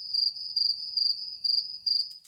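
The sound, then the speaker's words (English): A cricket chirps in a shrill, high-pitched, steady rhythm of about five short pulsing trills in quick succession. “What do you think that noise is? It's a cricket.”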